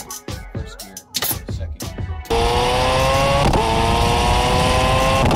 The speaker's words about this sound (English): he's just smacking gears on the paddle shifter. It sounds incredible. That's a road car.